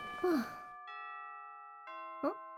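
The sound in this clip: A school chime rings as two clear, sustained bell tones, the second struck about a second after the first, both ringing on. A voice lets out a short sigh before the chime and again near the end.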